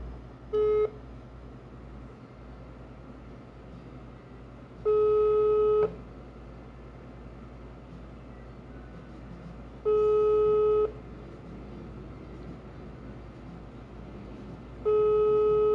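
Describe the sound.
Telephone line tone heard while calling a friend: four steady electronic beeps, each about a second long and spaced roughly five seconds apart, with the first one shorter, over a constant low hum.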